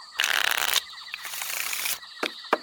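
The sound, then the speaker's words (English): Crisp riffling of a deck of cards made from fig leaves being shuffled in a cartoon. Two quick papery riffles are followed by a couple of light taps. “Eve, obviously, is bored beyond endurance as they play a game of cards with a deck of fig leaves.”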